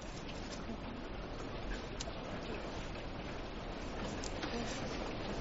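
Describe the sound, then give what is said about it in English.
Steady, faint hiss of falling rain, continuous and even throughout, with scattered soft ticks of individual drops. “So you're enjoying the rain?”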